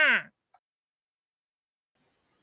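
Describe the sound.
A voice imitates a duck call with a single short nasal "wah" that falls in pitch, followed by near silence.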